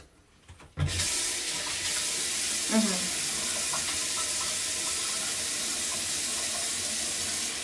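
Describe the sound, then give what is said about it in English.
Water from a sink tap gushes on abruptly after a brief quiet start and keeps rushing in a steady hiss while someone washes their face, with a brief splashing sound early on. “Washing my face. Check.”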